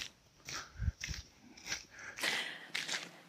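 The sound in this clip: Footsteps walking on asphalt through a residential street: a series of soft, dull steps at a steady walking pace.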